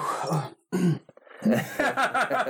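Someone clears their throat in a few rough, voiced bursts separated by short pauses, with a groaning, gravelly edge.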